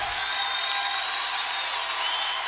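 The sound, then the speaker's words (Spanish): An audience claps in praise of the Lord during a church service, producing a steady, even wash of applause that continues without a clear rise or fall. “Levante ese aplauso al Señor.”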